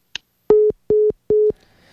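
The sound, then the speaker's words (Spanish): A busy tone follows a dropped phone call: a short click, then three identical steady beeps at one pitch, evenly spaced, with a faint hiss afterwards and no voices. “Se nos fue la comunicación. ¿Qué pasa con la llamada justo en el momento más importante?”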